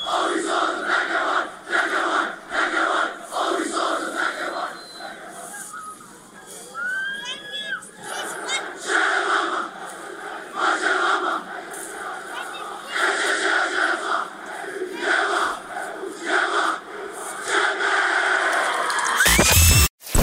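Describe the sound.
Jeppe high school students perform a war cry: many voices chant and shout together in loud, rhythmic bursts that continue throughout and then cut off sharply at the end.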